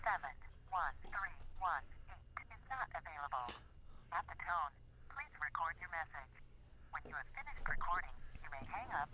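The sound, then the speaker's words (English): Telephone call ringing through to voicemail, carried over a thin, narrowband phone line with a voice speaking in short, steady bursts across the whole stretch. “You know what? I'm going to leave him a voicemail live on the air.”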